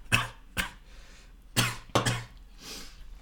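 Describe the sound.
Harsh coughing from a person who has just inhaled alcohol the wrong way: four sharp, raspy coughs in two pairs, then a softer, breathy wheeze trailing off.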